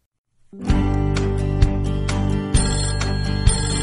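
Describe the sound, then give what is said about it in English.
A telephone rings with a loud electronic ringtone. The bright, tonal ring holds steady, marked by a few regular accents about a second apart, with no voices. “Ring, ring, telephone. I answer the telephone.”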